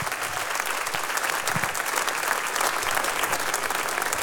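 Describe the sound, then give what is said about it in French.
Audience applause after a jazz club concert featuring flute and vocals, a full, dense burst of many hands clapping that stays thick and even throughout with no talk over it. “vous pouvez les applaudir encore une fois”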